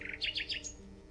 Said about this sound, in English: I heard a nightingale singing in the woods far away.